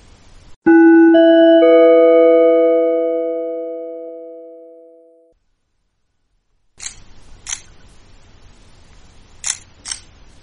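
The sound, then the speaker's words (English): Camera shutter clicks from someone taking pictures at a ceremony: a long ringing chime slowly fades out, then after a pause come a few sharp, short clicks. “Yes, the sound of clicks of the camera. That's you taking pictures.”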